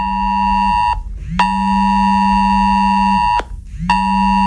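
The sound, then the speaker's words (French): Emergency disaster alert ringtone going off on mobile phones, a loud, harsh buzzing alarm tone over a low drone. Brief gaps break it into three long blasts. “C'est une alerte catastrophe, c'est un dispositif de sécurité pour prévenir les populations exposées à un risque majeur. Et c'est la préfecture qui déclenche cette sonnerie sur tous les portables présents dans une zone concernée”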